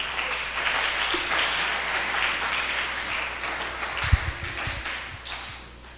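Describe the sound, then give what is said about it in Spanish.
A church audience applauds after a sermon reading: broad, continuous, moderately loud clapping, with a single dull thump partway through, before it thins and fades out. “Un aplauso, por favor.”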